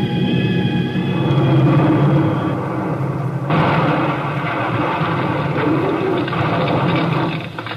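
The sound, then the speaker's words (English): Burning aircraft with its right engine smoking and the wing tank on fire making a belly landing: a droning engine with whining tones, then an abrupt, loud, broad roaring rush that takes over and holds before easing off at the end. “My right engine's smoking. Feather right prop. Gas off. Switch off. Switch off. She's blazing, Link. I think the wing tank's caught. We haven't enough altitude. I'm going to try a belly landing. Hang on.”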